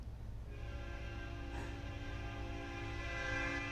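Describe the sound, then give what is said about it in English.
A train passes by with a steady rumbling roll and a sustained horn-like tone that holds throughout, fairly faint and even in level. “I'm going to let that train go by because that's my train. I don't know. I always watch it because I'm waiting one day.”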